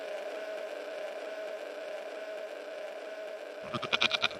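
A goat bleats in a few short, pulsing, nasal bursts near the end, rising out of a steady droning background that runs through the whole clip. The goat belongs to a village setting in the Swiss Alps.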